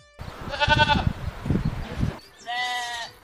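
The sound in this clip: Goats and sheep bleat while grazing on pasture: two long, wavering, nasal calls, the first early on and the second near the end, with a low voice and rustling heard beneath and between them.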